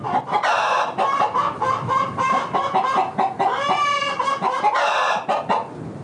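Chickens clucking at a poultry farm raised for manure biogas: many overlapping hens cackle and cluck loudly and continuously, in busy, uneven bursts without a break.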